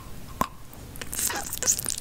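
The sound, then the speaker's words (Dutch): Crunchy eating of a pickle (gherkin): a sharp bite snaps out, then a few wet, crackling chews and squishes follow at moderate loudness, with no talking. “Maar dit is een pickle eating, dus het eten van een pickle, augurk.”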